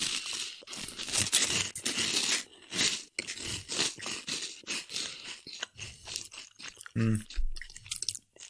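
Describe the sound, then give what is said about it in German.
Loud, dense crunching as someone chews honey-and-nut breakfast flakes. Rapid crackling bites run almost continuously at first, then break into a few separate, sharper crunches toward the end. “Kennt ihr noch von Kellogg's Crunchy Nut? Ja. Diese Frühstücks Flakes mit Honig und Nuss.”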